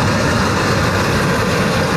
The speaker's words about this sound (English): Not far behind the house, the first official commercial truck, with Jim Pereira at the wheel.